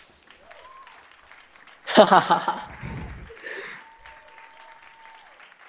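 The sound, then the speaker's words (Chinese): Applause from an audience swells suddenly into a loud burst of clapping, then thins and fades back to a faint murmur. “鼓掌”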